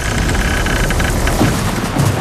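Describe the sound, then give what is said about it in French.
A thunderstorm with rain gives a loud, dense, unbroken hiss of falling rain with low rumbling underneath, lasting about two seconds. “Et on prend également l'orage”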